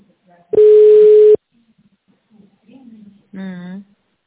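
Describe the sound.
A telephone ringback tone plays while a call is being connected to a company secretary. It is one steady, mid-pitched beep lasting under a second, followed by silence and then a short voice.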